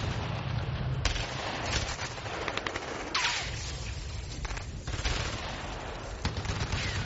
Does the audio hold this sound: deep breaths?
no